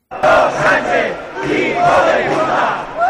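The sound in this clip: A protest rally crowd in Catalonia shouts and chants loudly in support of Ceuta and against the Pedro Sánchez government. Many voices rise together in rhythmic bursts without a break.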